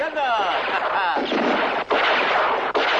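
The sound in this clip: Gunfire sound effect from an audio drama's mountain firefight: a loud, dense, continuous crackling roar of shots, broken by two very brief pauses.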